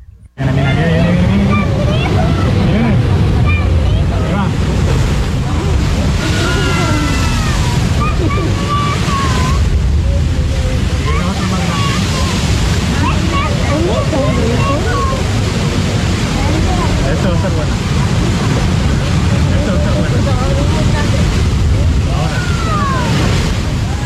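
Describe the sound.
Waves surge and roar at La Bufadora, the marine blowhole, as continuous loud surf mixes with gusting wind, while people talk underneath.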